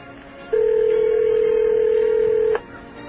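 A telephone line rings with a single steady electronic tone that lasts about two seconds. The tone starts and stops cleanly over faint background hiss.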